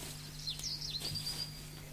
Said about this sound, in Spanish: Escúchelo, es este el pajarito.